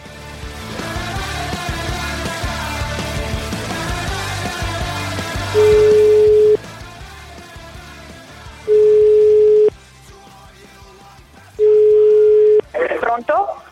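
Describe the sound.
Ringing tones of an outgoing telephone call: three long, steady beeps separated by pauses. They follow a stretch of people talking over background music, and the last one ends in a short burst of sound.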